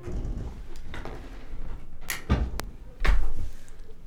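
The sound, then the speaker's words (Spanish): An upstairs door slams shut: a few sharp knocks and clatters lead into one heavy, low thud that rings loudly before fading. “Y se cerró la puerta de un golpe. Una puerta de arriba.”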